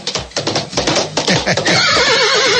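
A horse whinnies loudly, used as a sound effect for a horseback ride. Rhythmic hoofbeats come first, then a long neigh with a shaking, wavering pitch that carries on to the end.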